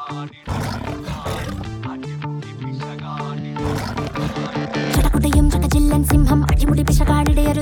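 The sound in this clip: A lion's roar rings out loudly over a dense musical backing, a deep, sustained growl that carries through the passage.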